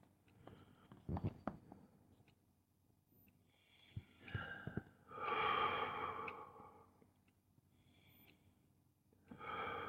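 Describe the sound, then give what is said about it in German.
Deep, deliberate breathing during a mindfulness exercise: a few slow, quiet breaths, with a long airy exhale in the middle and another breath starting at the end, separated by near-silent pauses. “Tiefe, bewusste Atemzüge.”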